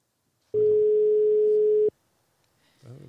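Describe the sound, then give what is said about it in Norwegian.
A steady telephone tone sounds while a call is being placed, one continuous mid-pitched tone lasting a little over a second. It stops abruptly, and after a short silence a voice begins to speak. “Skal vi ringe til Margit? Det kan vi gjøre. Skal vi se om vi får tak i henne.”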